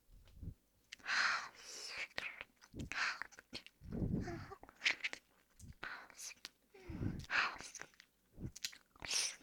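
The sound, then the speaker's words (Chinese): Wet licking and smacking mouth sounds, close and fairly soft, arrive in many irregular bursts across about nine seconds, some with a crunchy, chewing-like texture. “先舔舔主人吧。”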